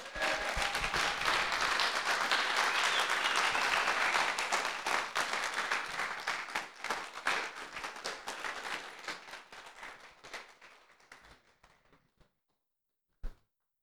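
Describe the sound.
An audience applauds to welcome a speaker to the stage. The dense, steady wash of clapping thins out and fades over about twelve seconds, followed by a single sharp knock.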